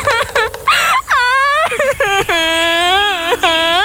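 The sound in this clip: A person cries loudly in a string of high, wavering wails and sobs, broken by short gasps and pauses between the bursts.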